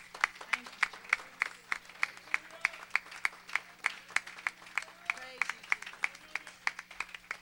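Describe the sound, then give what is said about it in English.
Church audience clapping hands in praise, many crisp claps falling in a steady, even rhythm at a brisk tempo, each strike sharp and distinct, continuing without a break. “Come on, give the Lord a good hand clap. Come on, don't halfway do it. Give him a good hand clap of praise.”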